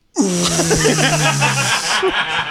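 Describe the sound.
A voice imitates someone exhaling vape smoke: a loud, sustained breathy hiss lasting about two seconds, with a low, buzzing voiced tone running underneath before it tapers off.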